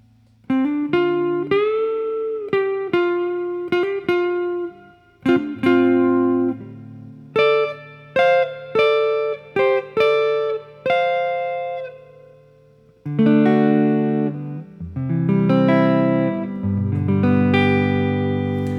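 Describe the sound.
Fender electric guitar on a clean channel plays single notes in short phrases separated by brief pauses. The tones are bright and ringing, loud and alone, and lower, fuller notes come in toward the end.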